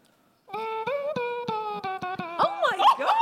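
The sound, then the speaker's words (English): A person imitates a dulcimer through the nose, making a run of twangy, nasal, plucked-sounding notes at a fairly steady pitch that break into wavering, warbling vocal sounds at the end. “It's an instrument called a dulcimer.”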